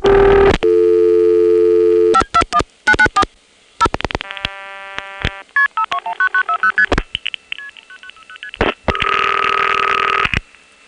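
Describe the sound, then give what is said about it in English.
Multi-frequency outpulsing tones from telephone register senders signal a call through to a crossbar 5 exchange in Arlington, Virginia: steady tones give way to rapid bursts of sharp two-tone beeps in several quick groups, then a final longer tone. “Here's a call to the 521 exchange in Arlington. It's a crossbar 5. This time you'll hear the Occoquan register sender MFing, and then the Arlington register sender MFing to the crossbar 5.”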